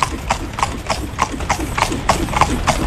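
Hooves of a horse pulling a carriage clip-clop on a city street in Viña del Mar, with a steady, even rhythm of many sharp strikes over a constant background rumble.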